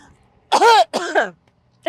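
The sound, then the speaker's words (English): A person coughs after swallowing the wrong way, in two short voiced, throaty bursts close together, much like a forced throat-clearing. “I'm going to have to cough.”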